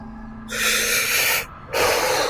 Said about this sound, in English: Takes a shaking breath.